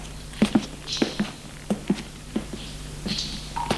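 Footsteps going down damp, slippery cellar stairs with water running on them, a series of soft, uneven thuds over a steady low hum.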